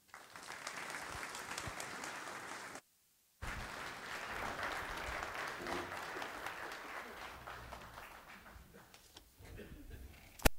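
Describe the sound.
Quiet audience applause greets a speaker at a faith gathering. A soft, steady clapping from many hands breaks off abruptly, resumes, then thins out and tapers near the end.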